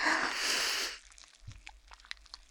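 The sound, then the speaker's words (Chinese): A deep breath drawn in during a calm-down breathing exercise, a loud airy rush lasting about a second, followed by near quiet with faint small rustles. “冷静，冷静，用力的深吸一口气，然后缓缓的吐出去，吸气，”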